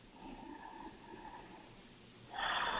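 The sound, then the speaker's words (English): A slow, deep breath taken during a calming breathing exercise, soft and airy, with a steady flow of air that grows stronger near the end. “Find my breath, a nice deep breath.”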